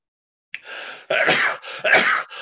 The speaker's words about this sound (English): I'm not in my studio and I'm still sneezing